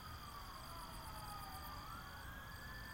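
A faint ambulance siren wails steadily, its tone sliding down and then climbing again above a constant background hiss.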